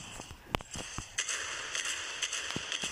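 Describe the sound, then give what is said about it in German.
Rockets being fired in a video game: many sharp, crackling bangs and pops in quick, irregular succession over a steady background of game noise. “Oh nein, die schießen. Raketen.”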